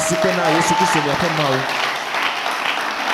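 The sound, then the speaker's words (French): A church audience applauding and cheering for Jesus: a voice carries over the start, then a broad wash of clapping and crowd noise holds at a steady level. “Ah, oh, Acclamez Jésus, votre Dieu”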